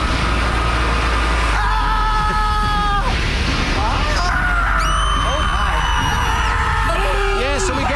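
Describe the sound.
A voice imitates the screaming of an imagined scream factory, with loud, drawn-out yells and whoops that waver and slide in pitch, some rising very high, over a steady low hum.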